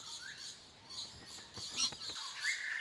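Lorikeets calling in Australia: shrill, high chirps and squeaky squawks overlapping almost continuously, fairly faint over a soft background hiss.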